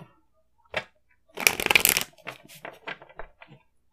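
Tarot cards are shuffled by hand: a brief riffle, then a dense, crisp flurry of flicking cards, followed by a few lighter taps and slides as the deck settles. No talk accompanies it.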